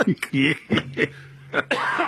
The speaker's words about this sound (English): I'm even going to cough.